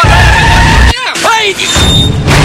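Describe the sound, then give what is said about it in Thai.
A car brakes suddenly to avoid a bicycle, its steady engine hum breaking off into a sharp tire screech that falls in pitch, followed by more road noise. “เบรกกระทันหันอันตรายอาจสร้างความเสียหายทั้งชีวิตและทรัพย์สิน”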